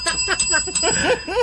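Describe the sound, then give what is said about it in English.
A bell rung in a radio studio during an on-air fundraising drive gives a thin, sustained high ring beneath continuous talking. “Hit the bell.”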